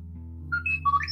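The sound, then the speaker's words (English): Phone ringtone chiming a short melody of a few bright electronic notes at varying pitches, fairly loud over a steady low hum. “Take the time to... Sorry, that was my phone.”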